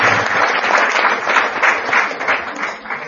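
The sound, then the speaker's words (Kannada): An audience at a devotional gathering claps to welcome the arriving gurus. The applause is loud, dense and sustained, then eases a little near the end. “ಚಪ್ಪಾಳೆ ಹೊಡೆಯೋದು”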